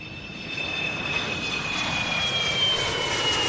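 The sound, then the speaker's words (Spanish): Airplane engine noise: a steady, loud roar with a thin high whine running through it, growing slightly louder over the few seconds, with no voices. “Este es el ruido del motor de un avión para hablar del misterio del OVNI de Galdar”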